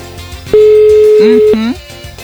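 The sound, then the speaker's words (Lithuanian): A telephone call tone as a radio station rings a listener. One loud, steady, even-pitched beep lasts about a second, and voices talk around it. “Tai mes dabar renkam telefoną ir tikėsimės, kad į mūsų skambutį atsilieps.”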